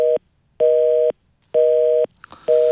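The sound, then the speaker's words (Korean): A telephone busy tone sounds after a call disconnects: loud, steady beeps in four evenly spaced pulses with silent gaps, and a faint click between the last two. “이 끊어지는 이 전화 목소리, 이 벨소리 별로 우리 좋아하지 않아요. 전화 연결이 안 된 느낌.”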